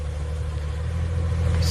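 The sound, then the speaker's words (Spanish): A Mercedes engine in a 750-horsepower carbon-fibre convertible sports car idles with a steady, deep, even rumble that grows slightly louder at the end. “Se trata de un deportivo descapotable construido con sofisticados materiales, entre ellos la fibra de carbono. Está equipado con un motor Mercedes que suena así.”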